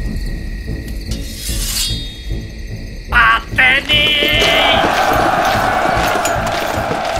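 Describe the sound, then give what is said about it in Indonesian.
A chained door bursting open and collapsing in a burning lodge: two sharp, shattering crashes in quick succession after thin chirping tones, followed by a lingering high, ringing noise. “Pintu yang diikat rantai itu jebol dan ambrol.”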